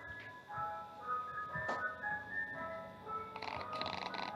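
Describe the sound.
An ice cream truck plays its tinkling electronic jingle as it drives past, a steady run of bright, high melodic notes with continuous street noise beneath, fairly loud throughout.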